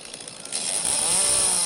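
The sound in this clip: A chainsaw cuts through wood during a volunteer fire brigade's road-clearing drill, its continuous high buzzing whine swelling louder after the first half second and holding steady, with no talk over it.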